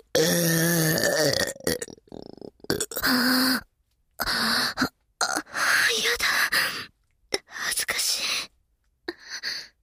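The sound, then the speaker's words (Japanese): Loud, crude burping comes in a series of voiced bursts separated by short silences, mixed with gasps and breathy vocal sounds. “あんな品のないゲップ初めて聞きました”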